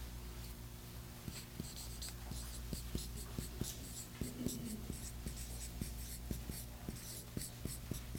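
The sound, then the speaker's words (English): Writing by hand with a pen: many faint, scratchy strokes in an irregular rhythm over a low, steady hum. “and I should write that for you so we know what that is”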